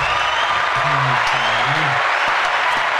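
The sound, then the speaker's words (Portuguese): A played applause sound effect gives a dense, steady burst of crowd clapping that stays loud for the whole stretch, while a low voice briefly murmurs underneath. “Prepara aí. Qual? As palmas.”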